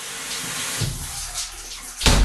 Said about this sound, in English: So that was my shower. I timed it on my iPhone.